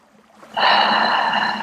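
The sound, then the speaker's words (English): A long, deep inhale during a guided meditation. The airy breath swells suddenly at about half a second and holds steady and fairly loud for over a second, with no talking. “let's take one last nice deep breath to round out this meditation.”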